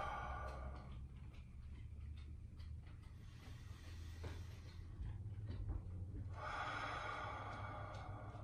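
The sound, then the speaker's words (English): A deep breath drawn in and released through the mouth, soft and airy: a faint breathy rush at the start and a longer, brighter exhale near the end over a quiet low hum. “let's take a deep inhale and release it all with an exhale through our mouth.”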